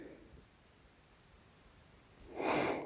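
A deep, forceful breath out through the nose while walking in the snow. A single short, snort-like rush of air comes near the end after near silence.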